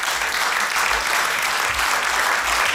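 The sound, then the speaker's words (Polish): Studio audience applause on a Polish radio program, dense, loud and sustained, with no pause or talk over it. “Wielkie brawa.”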